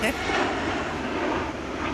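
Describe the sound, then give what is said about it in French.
Continuous broad roar of an airplane on its landing approach near an airport, holding steady and fairly loud without distinct separate events. “Là, ils sont en phase d'atterrissage. Oui, ils atterrissent, l'aéroport est par là.”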